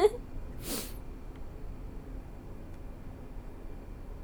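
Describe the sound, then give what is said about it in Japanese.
A single sharp sniffle from a runny nose in the cold: one brief, breathy intake of air, followed by quiet with a faint low hum. “ちょっと寒いから鼻水が”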